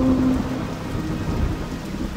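Rain falling on a river: a dense, steady wash of pattering drops with a low rumbling underneath, continuous throughout and with no voices.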